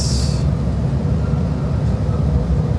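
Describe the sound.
A locomotive engine rumbles at a railway station in the early morning. The low, loud drone holds steady throughout, with a brief higher hiss at the very start and no voices.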